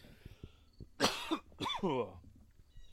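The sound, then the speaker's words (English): Coughing and throat clearing from someone choking up while layering spicy seasoning blends for venison: a few harsh, short bursts against a quiet background. “Oh, excuse me. I must be thinking hot and spicy because now I'm all of a sudden getting choked up here.”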